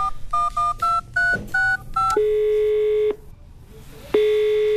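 A telephone number to a repair garage is dialed with a quick run of clear touch-tone key beeps. A long steady ringing tone follows, stops, and starts again after a pause.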